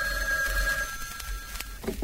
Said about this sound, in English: Oh, you hear that? That was the bells of Capistrano, I think. No, that's the phone.